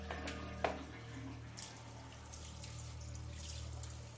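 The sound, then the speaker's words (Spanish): Someone washes their hands under a running tap. The water makes a quiet, steady splashing flow, with a couple of faint knocks early on. “Sale y se lava las manos.”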